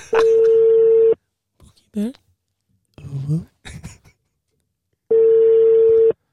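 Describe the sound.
Ringback tone of an unanswered telephone call: two long, steady, mid-pitched tones of about a second each, separated by a pause in which people talk.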